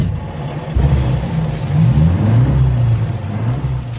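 A van engine revving as it shifts into second gear, a low, steady rumble that swells and wavers upward in pitch midway before settling back.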